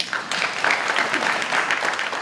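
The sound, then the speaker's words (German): Applause for a Swedish climate activist at a youth climate summit in Lausanne, a dense, steady wash of many hands clapping that holds at an even, fairly loud level through the whole short stretch. “Die schwedische Klimaaktivistin, die die Schulstreikbewegung angestoßen hatte und in Lausanne als ganz normale Teilnehmerin dabei war, erntete Beifall.”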